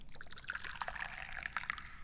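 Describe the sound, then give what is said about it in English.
High Mountain Oolong tea, a second infusion from leftover leaves, is poured in a faint, continuous liquid trickle. Soft splashes and drips flicker through it without pause. “Well, I'm drinking tea, duh. Let's pour some right now.”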